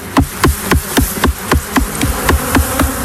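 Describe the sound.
Male honeybee drone buzzing, a large, plump bee that seems agitated, heard as a rapid series of regular, loud buzzing pulses with a steady rhythm throughout, no voices.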